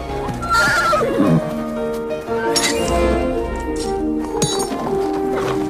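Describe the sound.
Horses neighing in a stable yard, one loud whinny falling in pitch, mixed with metallic clinks and hoof clops that continue throughout.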